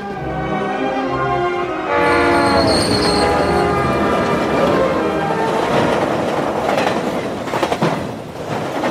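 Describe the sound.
A passenger train in motion makes a loud, steady rolling roar with rattling wheels. A sustained tonal whine sounds partway through, and no voices are heard.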